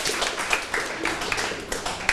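Students clap for a classmate in a classroom activity, a steady patter of many hands with scattered sharper individual claps, moderately loud and continuous throughout.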